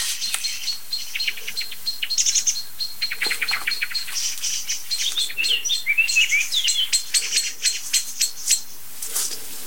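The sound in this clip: A blackbird sings within a dense, continuous chorus of bright, high chirps and tweets from a second bird species, with many quick overlapping calls.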